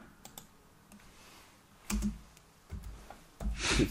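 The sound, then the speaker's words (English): Typing on a computer keyboard: faint, scattered key clicks, with a few louder bursts of keystrokes toward the end. “Type in sports science, though.”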